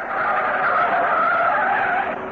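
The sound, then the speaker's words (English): Tires squeal and skid as a car is driven wildly around corners, one sustained, loud, high whine with an engine roar underneath. “Okay, so Myrtle drives off madly in all directions. After a few corners taken Myrtle style, he starts to get a bit jumpy himself.”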